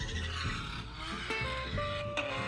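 A car on a racing track, its engine droning with shifting tones as tires squeal. The sound is fairly faint and continuous throughout.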